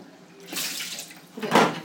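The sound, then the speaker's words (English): Water is emptied from a food steamer into a sink, a splashing pour followed by a louder, fuller gush near the end. “I'm just going to empty the steamer.”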